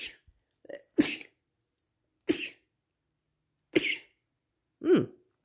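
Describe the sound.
Sneezes from a speaker: several sharp, breathy bursts separated by silence. A smaller burst comes first, then the louder ones follow at uneven intervals.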